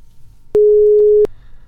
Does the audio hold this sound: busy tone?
yes